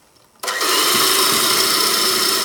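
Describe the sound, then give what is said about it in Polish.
An electric mixer beats batter for a Christmas fruit-and-nut cake after melted fat is added to the eggs. It switches on abruptly after a brief near-silence, then holds a loud, steady whirring drone until the end. “możemy miksować dalej”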